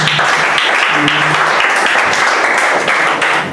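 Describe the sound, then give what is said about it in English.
A loud, dense round of applause welcomes a speaker, with many hands clapping steadily and evenly throughout, tapering slightly at the very end. “I already got not one but two rounds of applause”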